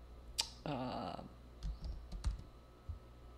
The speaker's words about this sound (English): I'm not smart enough to type and talk anymore.